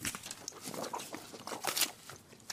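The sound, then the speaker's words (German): An animal bites into an apple from an orange bowl, making faint crunching and chewing noises with a few sharper crackles, quiet throughout. “beißt er in den Apfel in der orangenen Schale.”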